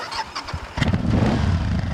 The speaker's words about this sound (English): The man, fearless, straddles the bike and revs the engine.